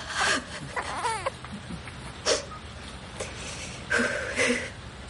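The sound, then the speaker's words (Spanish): A young woman cries while smiling, giving short, broken sobs and whimpering breaths in a few separate bursts with quiet gaps between them. “La joven llora sonriente.”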